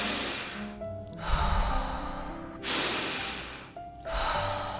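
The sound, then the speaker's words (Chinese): Deep rhythmic breathing demonstrates the Wim Hof method, with long, airy, forceful breaths in and out at a steady pace. Loud rushing breaths alternate with short quieter gaps across a few full cycles. “一回合呢，让自己用鼻腔吸，嘴巴吐气，或者你可以选择用嘴巴吸，嘴巴吐气，让自己的呼吸是保持在一个固定的频率。我可以稍微简单的示范一下，比如说是这样。”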